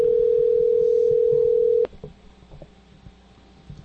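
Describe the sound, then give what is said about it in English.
Telephone dial tone: a loud, steady single tone holds for nearly two seconds, then cuts off with a click, followed by faint low clicks and rustles. “Notice I turned the volume off before I dialed.”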